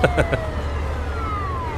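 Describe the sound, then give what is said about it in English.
A police car siren gives a short whoop, with drawn-out tones gliding downward in pitch over a low vehicle rumble. It opens with a few quick pulsing bursts. “Whoop, whoop. It's the sound of the police.”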